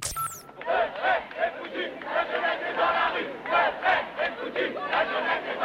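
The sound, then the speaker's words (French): A large crowd chants rhythmically at the 2002 youth demonstrations in France against Jean-Marie Le Pen. Many voices rise and fall in loud, pulsing shouts that continue steadily throughout. “Souvenez-vous des manifestations de la jeunesse quand Jean-Marie Le Pen était opposé à Jacques Chirac.”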